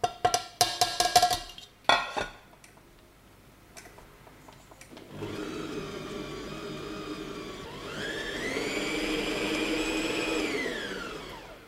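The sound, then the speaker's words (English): An electric mixer whirs through butter, sugar, eggs and flour after a few sharp clattering knocks. Its motor settles into a steady hum, then steps up to a higher, louder whine for the last few seconds. “I'm just gonna add it all into the wet ingredients, the butter and sugar and eggs, into the mixer. And just mix it until it's just combined. So just like 10 to 15 seconds, really.”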